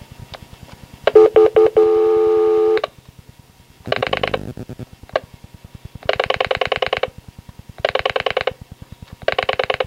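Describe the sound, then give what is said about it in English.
A telephone number is dialed as a series of touch-tone key beeps in several separate bursts over a steady, rapid ticking pulse, loud and with no talking. “dial a number”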